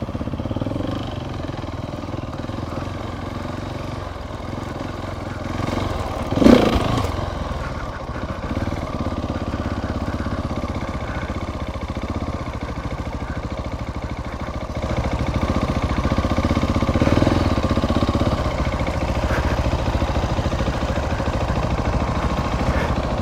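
A Triumph Tiger motorcycle engine runs on a gravel riding course, a steady mid-pitched drone with a brief clunk partway through. It grows slightly louder later on, with no talk over it.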